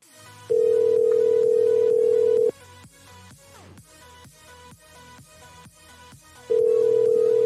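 An unanswered phone call rings back in long, flat, steady tones: one lasts about two seconds, a pause of roughly four seconds follows, then the next tone begins.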